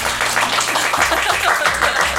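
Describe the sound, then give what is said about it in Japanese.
Steady clapping to congratulate a newly appointed brand ambassador, a dense patter of hand claps that carries on without a break through the short stretch. “拍手”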